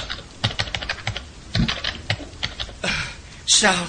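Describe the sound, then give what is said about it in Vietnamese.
Fingers typing on a computer keyboard, giving many quick, irregular clicking keystrokes in uneven bursts, ending in a louder, denser rush of noise. “Những ngón tay của Tư Dao cứng đờ vì sợ hãi, gõ trên bàn phím.”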